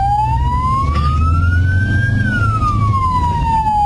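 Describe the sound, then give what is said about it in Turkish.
An ambulance siren wails through traffic as drivers pull aside to open a corridor. It is one loud tone that climbs steadily, holds, then slides back down, over a constant low engine rumble. “Zamanla yarışan ambulans şoförü sirenlerini açarak yol istedi.”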